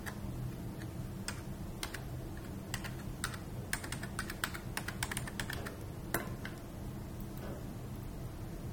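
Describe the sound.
Someone types a password on a computer keyboard, producing many quiet, quick key clicks in a steady, uneven patter with no talking.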